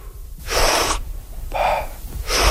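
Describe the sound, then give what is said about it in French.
Deep recovery breaths taken at the water's surface with elbows resting on a buoy after a dive: a forceful, hissing inhale, a softer airy exhale, then another sharp breath beginning. “Ça va être une grande inspiration, mm-hmm. Très actif et passif en expiration.”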